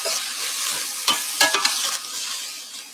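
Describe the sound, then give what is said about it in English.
Onions are stirred in a pan with aquafaba instead of oil: a soft, continuous sizzle with several quick scraping strokes of the spoon, and no voices. “I'm going to give this a stir.”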